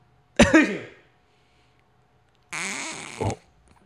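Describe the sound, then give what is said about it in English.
A person coughing and trying to sneeze: a short, sharp cough burst, then after a pause a longer, strained, throaty burst that ends abruptly. “I coughed and I was trying to sneeze and cough.”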